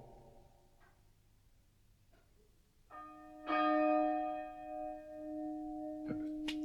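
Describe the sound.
A church bell is rung by pulling its bell rope, sounding a few deep, resonant strikes whose long humming tones hang and overlap after a quiet, faintly murmuring stretch.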